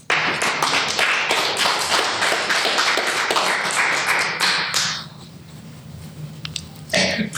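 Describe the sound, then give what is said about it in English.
Applause welcoming an environmental reporter before he speaks, dense, loud clapping for about five seconds that stops abruptly, leaving near quiet and a few faint knocks. “Please welcome and give a hand for Carson Gerber.”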